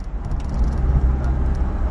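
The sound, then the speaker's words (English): Steady low engine rumble from a bus pulling away on a long journey bound for Harare, a continuous, even drone of motor and road noise throughout, with no clear talk. “The bus leaves on its 16-hour-plus journey to Harare.”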